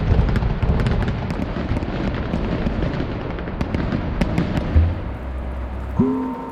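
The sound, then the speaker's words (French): Fireworks from a huge display at New York's centennial festivities make a dense, continuous crackle of many sharp pops and bangs over a steady low rumble. “À New York, 6 millions de spectateurs assistent aux festivités, parmi lesquels le plus grand feu d'artifice de l'histoire des États-Unis.”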